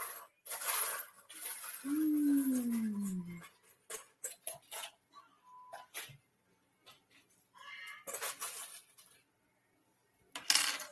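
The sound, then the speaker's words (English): Small charms clink and clatter as they are mixed up by hand, in many irregular metallic taps that come in bursts with quiet gaps, plus a falling whine early on. “So let me pull a couple of charms for you, my friend. I have to mix them up.”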